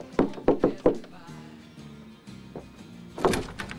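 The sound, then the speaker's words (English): Knocking on a bedroom door: four firm, quick raps in the first second, evenly spaced and fairly loud, followed by quieter shuffling. “Paul knocks on the bedroom door.”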